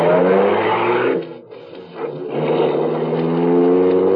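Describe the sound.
A car engine revs as the car drives off, a loud harmonic drone that dips and thins for a moment in the middle before swelling back up to full strength.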